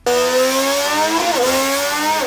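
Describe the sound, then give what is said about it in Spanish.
A new Honda Formula 1 engine built for Aston Martin runs with a loud, steady, high-pitched harmonic drone. Its pitch dips briefly twice, and no voices are heard. “Y aparte de los FIA Awards, comentarte también el sonido del día, el motor de Honda que han publicado.”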